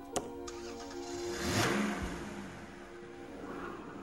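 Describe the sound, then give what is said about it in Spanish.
A car engine cranks and starts after a sharp click, swells into a loud rev, then eases back into a steadier, fading hum as the car pulls away. “Desde allí, Woody pudo oír el coche de Andy arrancar y marcharse.”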